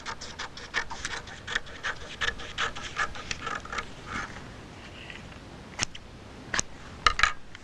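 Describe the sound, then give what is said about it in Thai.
Scissors snip through fabric, trimming excess material for a ruffled sleeve. Many faint, quick cuts come in a steady rhythm, with a few sharper, louder snips near the end. No voices are heard. “แล้วเราก็ตัดส่วนเกินออกไปนะคะด้านบนก็เช่นเดียวกันนะคะส่วนที่เกินก็ตัดออกไปเลยนะคะ”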